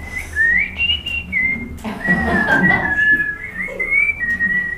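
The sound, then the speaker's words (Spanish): A person whistles a wandering tune of sliding, wavering high notes, held fairly loud and steady throughout, during a trainers' workshop session; no one speaks. “Miren que el silbido es lo más personal que hay.”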